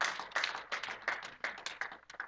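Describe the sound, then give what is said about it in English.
Audience clapping after a story: many irregular, overlapping hand claps at a steady moderate loudness, with no talking over them. “And yeah, you can clap because that's a good story.”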